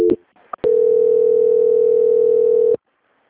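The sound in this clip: Steady telephone line tone heard while a call is being transferred, preceded by a few short clicks and blips, then a loud, level hum holding one pitch for about two seconds before cutting off abruptly.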